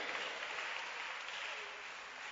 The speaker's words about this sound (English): What a church. Clap your hands for church.